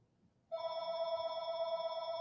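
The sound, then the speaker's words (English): Landline telephone ringing at a parents' home in the woods: a steady, bright electronic ring starts after about half a second and holds evenly to the end, with no other sounds. “I apologize for the phone. But I'm at my parents' home today, and they're still living in the woods and old, so they have a landline,”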